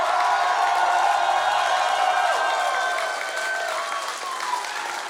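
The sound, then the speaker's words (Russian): Applause from an audience, dense and steady clapping with some cheering that holds at a constant level and eases slightly toward the end. “Мы хлопаем вам.”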